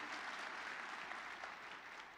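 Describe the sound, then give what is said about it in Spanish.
A church audience applauding, a faint, steady patter of many hands clapping together without a break for the whole stretch. “Si estás de acuerdo, vamos a dar un aplauso al Señor.”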